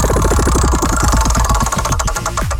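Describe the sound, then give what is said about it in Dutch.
A letter-picking music wheel spins in a quiz game, giving a fast run of many loud, even ticks that gradually spread out and slow as the wheel winds down. “Iedere dag doen we dat met een andere letter. En welke letter dat vandaag wordt, bepaalt het Nostalgie Plus Muziekrad.”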